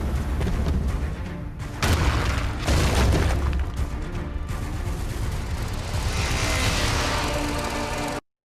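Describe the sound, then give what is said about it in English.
Gunfire and explosions from an action movie trailer: dense, loud booms and bursts of shooting in a continuous barrage that cuts off abruptly at the end. “if you're listening on the podcast, you'll hear some shooting and stuff”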